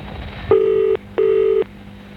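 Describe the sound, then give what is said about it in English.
Telephone ringing tone in a radio advertisement: two short, steady electronic bursts close together, loud and clear over a low background hum. “All it takes is a simple phone call.”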